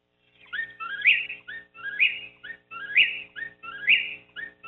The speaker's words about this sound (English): here's the sound of the whippoorwill and the Chuckwill's Widow.